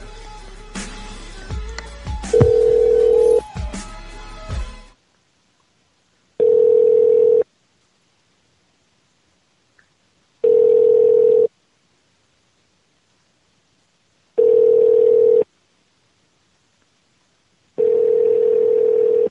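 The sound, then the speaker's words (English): A telephone being dialed: a brief jumble of tones and clicks, then four evenly spaced, steady tone bursts about a second long, each followed by silence. “Got to dial the numbers first.”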